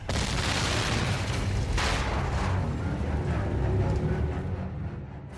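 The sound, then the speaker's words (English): A huge airship exploding in a radio drama: a loud, sustained roaring blast that rumbles on for several seconds and eases slightly at the end. “It came down crashing near me. Red Martians were falling from the side of the huge ship, and then it exploded again.”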